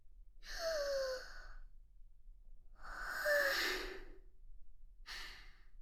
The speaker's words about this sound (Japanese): ちょっと深呼吸して落ち着きますね。